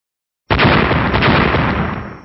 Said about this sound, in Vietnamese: Một tiếng nổ vang rung trời triệt địa truyền đến.